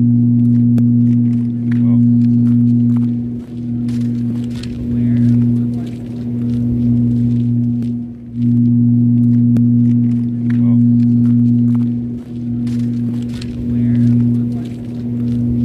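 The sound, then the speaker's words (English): Grinding industrial hum from a facility in Donkin, on the outskirts of Sydney: low droning tones hold steady while the whole sound swells and fades in slow, recurring pulses, loud throughout. “and it's this grinding industrial noise, and it pulses, so it kind of comes in and out. The group recorded the noise that comes from the facility in Donkin on the outskirts of Sydney. They say it sounds like this.”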